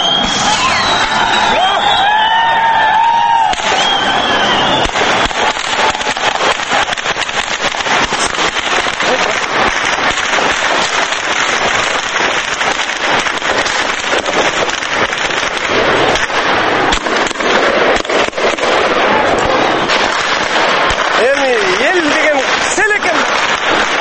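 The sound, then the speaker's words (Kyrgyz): Crowd uproar from a clash between police and protesters outside the White House in Bishkek, Kyrgyzstan: a loud, unbroken roar of many voices with dense crackling noise throughout, with shouts rising out of the din. “Эмесе бүгүн 7 апрелде Бишкекте Ак үй алдында болгон милиция менен митингчилердин кагылышынан үндөрдү эч комментарий жок сунуштасак.”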